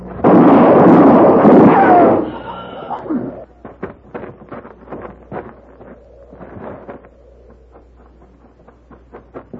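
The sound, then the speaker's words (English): A gunshot bursts out as one loud, harsh blast that rings for about two seconds before cutting off, followed by a quieter stretch of scattered short knocks and clatters. “You all right, Mrs. Lockton? You shot him. Yes, ma'am. He's dead.”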